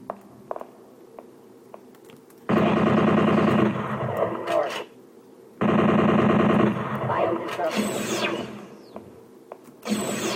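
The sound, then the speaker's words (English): Automatic bolt gun firing in a video game, on the final level deep underground: two sustained bursts of rapid, loud automatic fire, with quieter clattering game sounds between and after them. “Automatic bolt gun.”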